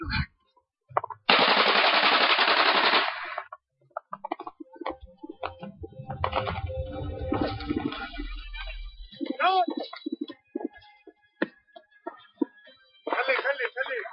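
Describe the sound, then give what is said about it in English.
Sustained automatic gunfire in an exchange of fire during a failed attack on a base: one long, loud rattling burst, then scattered shorter shots, with voices between, and another dense burst at the end. “After nearly an hour of exchanging fire like this, we had to run away.”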